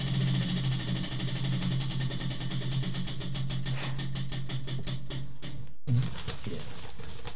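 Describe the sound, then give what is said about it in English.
A prize wheel for a party game spins with a rapid ticking that gradually slows as it winds down, over a steady low hum. “it's time for the would you rather spin of the wheel. Let's spin the wheel.”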